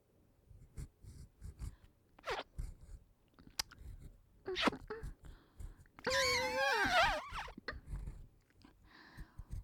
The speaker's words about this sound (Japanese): 私の耳なめどうですか？ニュルニュルしてて気持ちいいですか？